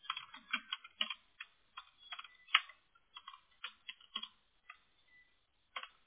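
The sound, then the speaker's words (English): Someone types a hidden entry on a computer keyboard: many faint, irregular key clicks in short bursts, separated by brief pauses. “Well, I cannot type today. There we go. I have to enter it twice, and it's hidden the whole time.”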